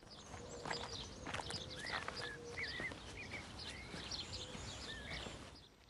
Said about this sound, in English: He opens the gate and steps into the garden, followed by Tulin. They stroll through the garden.